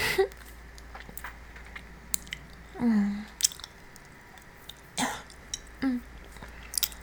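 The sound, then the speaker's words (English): Wet sucking on fingers to moisten them: a few short, moist slurping and squishing bursts spaced irregularly over quiet, low background hiss. “could you at least suck on my fingers to get them wet for me, please?”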